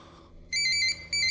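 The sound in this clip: A phone ringtone plays in two bursts of bright, steady electronic tones, the first about half a second long and the second starting after a short gap and running to the end.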